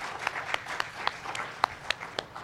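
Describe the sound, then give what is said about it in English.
Faint applause from a church audience for its worship team, made of sparse, separate claps scattered unevenly over a soft background. “So if everybody can give them a round of applause.”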